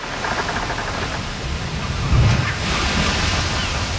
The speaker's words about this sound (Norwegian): Vi ute på sjøen i Karibien.